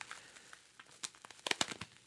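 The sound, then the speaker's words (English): Tissue paper and bubble wrap being unwrapped, giving faint, irregular crinkling with many sharp little crackles that bunch together and grow busier toward the middle and end. “We got tissue paper, bubble wrap, rubber band.”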